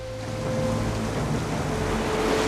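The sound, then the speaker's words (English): Ocean surf rolls in as frothing white waves break on a beach where a surfer paddles out, a steady, dense roar of rushing water that holds at an even loudness throughout. “collects his board from the beach before paddling out into the frothing white surf”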